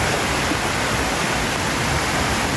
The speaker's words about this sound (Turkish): Taşan dere nedeniyle bazı evler ve ahırlar su altında kaldı.